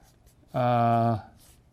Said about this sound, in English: In fact, I should write that up here.